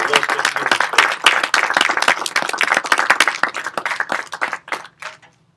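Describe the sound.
Lively applause fills a church as the audience welcomes two guests, dense overlapping claps that gradually thin out and die away near the end.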